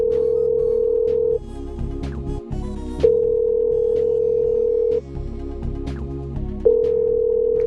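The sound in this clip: An outgoing phone call to a convenience store rings with a steady mid-pitched ringback tone in three long bursts, the first and last cut off at the edges, separated by short pauses over a low, busy background.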